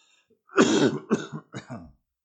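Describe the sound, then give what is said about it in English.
Chest coughing: three harsh, rough coughs in close succession. The first is the longest and loudest, followed by two shorter bursts, with no talk around them. “It's just something down in my chest. I start coughing”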